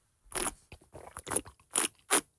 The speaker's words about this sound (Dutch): Dus nu komt de eerste slok dan.